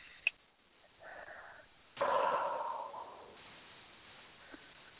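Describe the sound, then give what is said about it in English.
Soft, airy breathing: a short intake is followed by a longer, louder deep breath in that gradually fades away. The sounds are faint and there is no talk. “Okay, one more deep breath in.”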